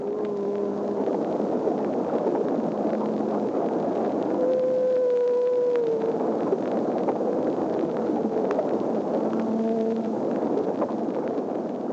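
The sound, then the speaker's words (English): A humpback whale's song, recorded in March 1949: long tonal moans and shorter calls, including one sustained steady note, heard over a loud, constant rushing noise. “That is the song of a humpback whale.”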